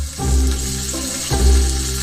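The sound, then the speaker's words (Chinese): Monkfish liver simmers in a little water over low heat, breaking into granules that melt into the broth. A steady sizzling hiss runs throughout over a low rumble, swelling louder twice, with no voices. “加入少量水，小火炖煮，在这一过程中，安康鱼肝化成颗粒融进汤汁。”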